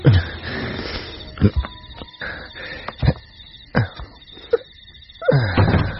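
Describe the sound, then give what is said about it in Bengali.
A cupboard, an almirah standing by the head of a bed, is opened: a series of knocks, thumps and creaky scrapes of wooden doors, with quieter rattling between the sharper hits. “আমার এই মাথার কাছে আলমারিটা খোলো তো।”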